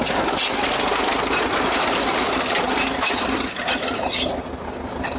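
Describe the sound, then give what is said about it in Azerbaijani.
A tractor engine works at clearing a road at a village entrance, giving a loud, steady rumble with mechanical clatter that holds almost unchanged throughout and eases slightly near the end. “Elə girəcəkdə cəmaat yığışıb yolu təmizləyən traktoru tamaşa edirdi.”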